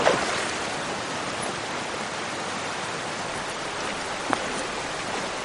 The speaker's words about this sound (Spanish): caminan sobre la ribera rocosa de un río de aguas transparentes. Cruzan un meandro.